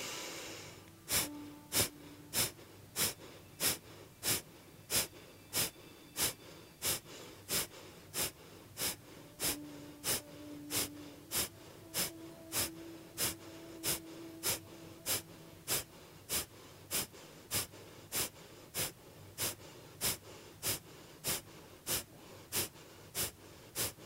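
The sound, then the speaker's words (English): Kapalabhati yoga breathing: many sharp, forceful nasal exhales repeat at a fast, even rhythm, each a short hissing burst, with no talk over them and only a faint steady background between. “roll your pelvis over your leg bone, and we'll do the Kapalabhati breath again.”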